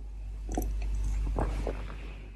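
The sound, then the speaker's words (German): Someone takes a sip of red wine, producing a few faint, soft wet mouth sounds and a swallow over a steady low hum. “Hey Leute, ratet mal, womit ich hier sitze, während ich den Podcast produziere. Ich muss direkt mal einen Schluck nehmen.”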